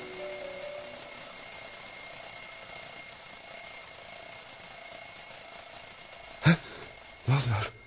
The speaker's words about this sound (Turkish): Bu ses de ne? Çalar saatin sesi